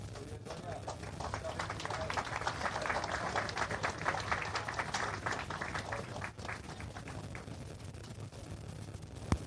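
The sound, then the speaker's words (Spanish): Applause as Sonia Ocampos is called forward at a ceremony: brisk, dense clapping from many hands that holds steady for about six seconds, then thins and dies away. “fuerte los aplausos para Sonia Ocampos”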